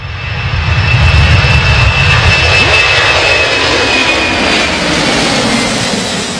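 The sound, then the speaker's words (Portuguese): An airplane flies past as a sound effect. A loud, broad engine roar with a thin whining tone swells early, then holds steady before easing slightly toward the end. “Durante o Estádio 97, a gente solta o efeito aqui sonoro do avião, ó. Vou soltar, ó, aliás, dica, hein? Tô soltando hoje pela primeira vez.”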